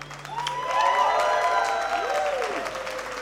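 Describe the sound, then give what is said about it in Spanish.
Audience applause for performers, dense and steady for about three seconds, swelling slightly near the middle, with gliding whistle-like tones rising and falling over the clapping. “Aplauso para usted, gente linda.”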